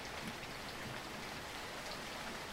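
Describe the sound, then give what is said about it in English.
Rain streaming down a window makes a quiet, even hiss of drops that carries on without a break, with no voices. “She turns to the door and sees the rain streaming down the window.”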